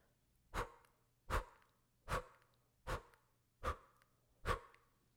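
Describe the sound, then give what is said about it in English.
Six rapid, forceful exhales through the mouth in a breathwork exercise, evenly spaced and breathy. Each is a sharp puff that quickly fades, with no talk between them. “So it's going to be all exhales through the mouth. And it's going to sound like this.”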